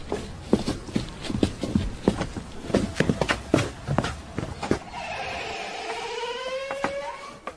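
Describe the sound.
Footsteps of several people walking into a building, many uneven steps in a loose rhythm for about five seconds, then the steps stop and a quieter sustained sound remains.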